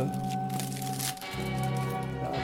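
Packaging of a vinyl record album being opened: crackling, crinkling handling noises over steady background music, with a short pause before the rustling resumes.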